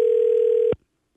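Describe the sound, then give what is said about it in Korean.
A telephone ringing tone as a call connects: one loud, steady, single-pitched tone that holds unbroken, then cuts off abruptly into silence. “신호가 가고 있습니다.”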